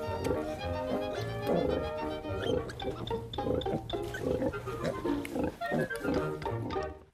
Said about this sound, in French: La truie se couche sur le côté, puis tous les petits se jettent brûlement sur ses mamelles pour téter le lait.